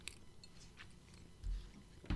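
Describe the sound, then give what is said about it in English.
Faint chewing of a mouthful of pound cake, soft irregular moist mouth noises with a couple of louder thumps toward the end. “excuse me, I just had a mouthful of pound cake.”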